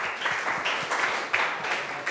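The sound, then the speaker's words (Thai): Students clap together in a classroom, a dense, continuous patter of applause at moderate loudness with a few slightly stronger swells. “ปรบมือให้หัวหน้าห้องของเราหน่อยนะคะ”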